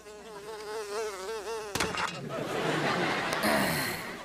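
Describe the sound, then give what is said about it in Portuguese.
A housefly buzzes with a wavering, slightly warbling pitch for nearly two seconds, then the buzz breaks off into a rougher, noisy rush that fills the rest of the moment. “Mosca idiota.”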